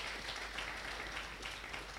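An audience claps at a church service, a dense, even wash of applause that carries on steadily and fairly quietly for the whole two seconds, with no voices over it.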